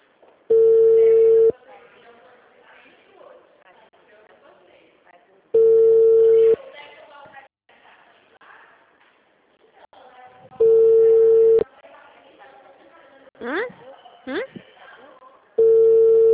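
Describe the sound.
Ringback tones from a call placed to a mobile phone: four steady, evenly spaced beeps, each about a second long, with people talking quietly in the gaps between them.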